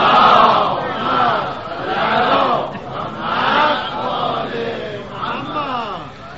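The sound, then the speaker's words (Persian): Many voices loudly chant salawat, an Islamic blessing, together at a Ramadan gathering. The chant is a sustained, swelling wave of overlapping voices that rises and dips in a few long phrases. “اگه خسته نشدید صلوات رو بلند کرد.”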